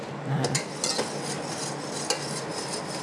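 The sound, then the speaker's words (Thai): A metal whisk, just used for beating flour batter, is handed over and handled in a kitchen. A few light metallic clinks and rattles against utensils sit over a steady background hiss. “นักศึกษาหยิบตะกร้อให้หน่อยนะคะเพราะว่าอันนี้นี่เราพอดีเราไปตีแป้งเนาะเมื่อกี้เนี่ยกลัวเดี๋ยวมันผงแป้งมันจะลงค่ะ”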